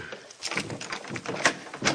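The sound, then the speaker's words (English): A door is unlocked and opened, producing a quick series of faint clicks, knocks and latch rattles, with a couple of sharper metallic snaps. “Well, he says you can unlock the door now.”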